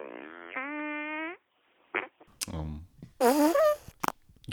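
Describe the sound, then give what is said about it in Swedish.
A long, buzzy, tonal fart sound effect, dry rather than wet, runs for over a second with a step up in pitch midway, followed by people talking. “Och just att jag tror att vi alla har hört den typen av fis. Den gav något annat än det här blöta och vanliga ljudet.”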